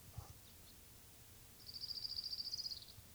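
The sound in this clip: Orange-crowned warbler song: a single faint, rapid, high-pitched trill of many evenly spaced notes lasting about a second, after a brief quiet call.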